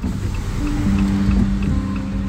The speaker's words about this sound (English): I'm driving through Claremore, Oklahoma, within the Cherokee Nation Reservation to get to a community called Bushy Head. It's about sunset. And even though it's bright and sunny, as I make my way down the Will Rogers Turnpike,